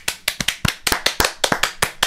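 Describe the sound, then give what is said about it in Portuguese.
Scattered audience clapping to congratulate a writer on finishing a 120-page feature screenplay: many sharp, separate hand claps in an uneven rhythm, fairly loud and heard alone without talk. “Palmas.”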